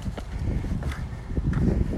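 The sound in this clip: Footsteps climbing steep steps up toward the Minack, a steady run of scuffing treads at an even walking rhythm, moderately loud.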